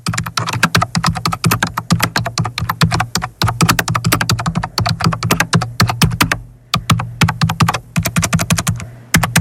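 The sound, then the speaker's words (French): Rapid typing on a computer keyboard, played as a guess-the-everyday-noise quiz sound: a dense, irregular stream of sharp plastic key clicks with one short pause, no talk. “C'est un clavier d'ordinateur.”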